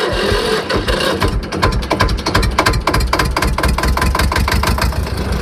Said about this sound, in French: On a toutes les marques un peu, des tracteurs qui fonctionnent, d'autres qui fonctionnent moins bien. La plupart démarrent quand même au quart de tour, la preuve.